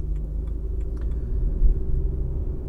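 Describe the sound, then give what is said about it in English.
Low, steady rumble of a car driving through downtown one-way streets, an engine and road drone that swells briefly near the middle, with no talk. “Okay, we're driving in the heart of the downtown center now, folks.”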